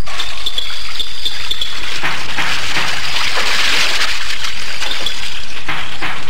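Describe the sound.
Hot water being poured, a loud, steady splashing hiss that runs unbroken through the whole clip, with no voices.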